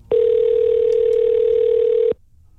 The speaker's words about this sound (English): Let's see if we can get Christine Fraze on the line.